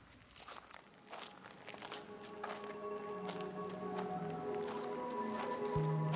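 Footsteps crunch along a gravel and stone walking ramp that winds through the woods at night, a steady run of many gritty steps that grow gradually louder over a faint, even hum.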